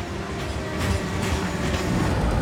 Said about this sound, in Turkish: Yük treni hızla onlara yaklaşırken tren geçmeden önce rayı değiştirmeleri gerek.